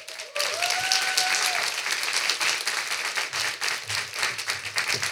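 An audience at a Slovak stage event applauds as an investigative journalist is welcomed on stage. Dense, even clapping starts abruptly and keeps up at a steady level for about five seconds.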